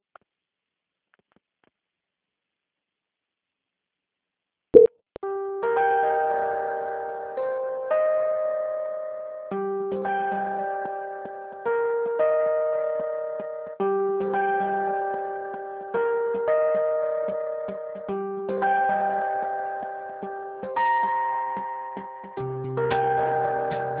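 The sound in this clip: During a phone call transfer to an auditing department, a sharp click is followed by a looping, chime-like melody of bell tones. Each note swells and decays in a steady repeating pattern.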